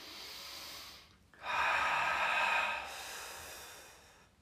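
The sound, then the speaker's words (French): Deep inhale during a yoga breathing exercise in warrior pose: a soft breath, a brief pause, then a louder, airy intake of breath lasting about a second and a half before easing off. “Inspiration, on respire naturellement.”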